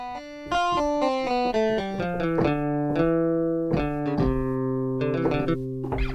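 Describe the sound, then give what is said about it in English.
Solo electric guitar played with nothing else in the mix, a melodic run of many clean, sustained single notes that ring over one another at a steady, fairly loud level, with no voices. “So this is the electric guitar, just on its own.”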